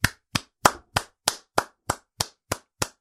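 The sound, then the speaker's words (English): A single person clapping hands: ten sharp, evenly spaced claps at a steady brisk rhythm, each crisp and clear, heard alone with nothing else behind them. “And that's not a sarcastic clap. That's a real clap”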